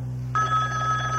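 A new car phone starts ringing after a brief moment of quiet, giving a steady, bright electronic tone that holds over a low constant hum.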